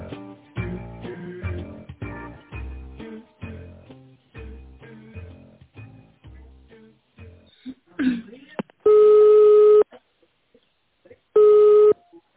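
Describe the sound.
Telephone line tones sound as a call is being connected after an automated voice menu: two long, steady, mid-pitched tone bursts separated by silence, following busier sound at the start.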